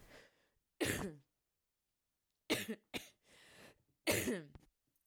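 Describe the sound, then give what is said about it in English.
Several harsh, throaty coughs break out in separate loud bursts, some sharper and some rougher, with short silent gaps between them and no talk. “there's been lots of cough breaks”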